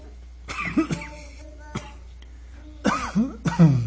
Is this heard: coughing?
yes